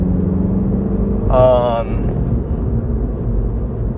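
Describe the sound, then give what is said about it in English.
A car engine idles while warming up, giving a steady low rumble throughout. A short, higher tonal sound briefly rises above the rumble near the middle. “My engine's almost warm.”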